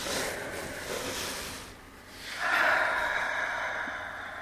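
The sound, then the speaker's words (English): Slow, deep meditation breathing: one long airy inhale, a brief pause, then a longer, fuller exhale, steady and soft with no talk over it. “And inhale and exhale.”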